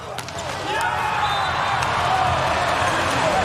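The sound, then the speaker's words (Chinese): A volleyball player hits a powerful jump serve with sharp smacks on the ball, set against continuous crowd noise and a commentator talking during the match. “王斌的大力挑发球。”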